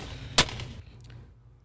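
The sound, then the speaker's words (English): Gunshot from a played video of a woman firing a gun: one loud, sharp crack followed by a short fading tail. “I can't play it on YouTube because she's shooting a gun.”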